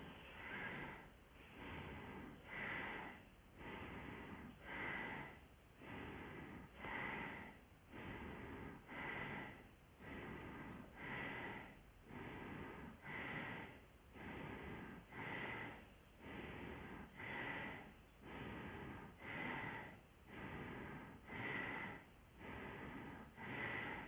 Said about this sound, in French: vous allez boucher la narine droite avec le pouce droit et vous allez commencer le souffle de Bastrika dans le canal de gauche